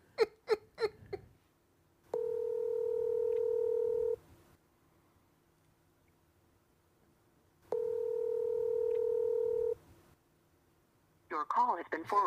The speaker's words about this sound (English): I'm finna dial some numbers.